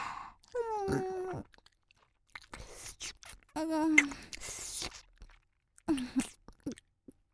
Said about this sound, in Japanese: 口の中で卵とマヨミルクをミックスしてぐちぐちにしていっぱい舌で味わってから